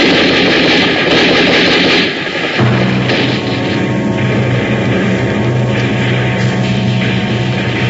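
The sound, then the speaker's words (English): Rifle and submachine gun fire roars through a battle against Chinese troops as a dense, unbroken wall of loud gunfire and combat noise. A steady low droning tone runs underneath for most of the stretch. “I fired my rifle till I had no more clips, and then I dropped it and took a submachine gun from a dead Chinese and cut my way to the company.”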